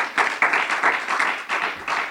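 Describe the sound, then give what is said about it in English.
Congregation clapping hands in praise during a church service, a steady, dense patter of many palms sustained for the whole stretch at moderate loudness with no talk over it. “Can we give the Lord a hand clap of praise tonight?”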